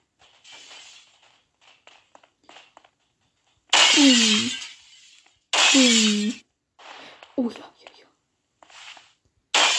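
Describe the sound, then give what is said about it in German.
Window glass shatters as windows are shot out in a Roblox shooting game. Two loud crashing bursts with ringing, falling tones are followed by a few lighter breaking clinks, with soft whispered talk throughout. “Ich zerschieße hier gerade alle Fenster, damit man hier rausschießen kann.”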